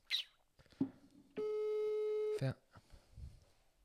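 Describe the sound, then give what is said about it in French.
The ringback tone of an outgoing phone call sounds once for about a second, a steady, buzzy mid-pitched tone, with short murmurs and clicks before and after it. “Alors, appelons Nathan pour voir.”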